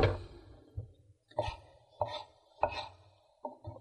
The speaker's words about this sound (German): So, dann die Tomaten halbieren, die Blüte raus und dann in so Achtel schneiden.